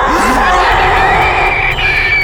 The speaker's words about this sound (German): Hinter uns ertönte ein Gebrüll, das uns durch Mark und Bein ging. Und dann stieß zwischen zwei monolithartigen Felsbrocken ein hässlicher Drachenschädel hervor.